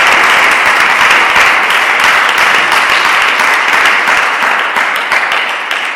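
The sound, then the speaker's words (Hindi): Loud applause from a church audience during a worship service, a thick, continuous roar of clapping that holds steady and eases slightly in the last second or so. “Hallelujah, यीशु मसीह के लिए जरा जोरदार तालियां देंगे।”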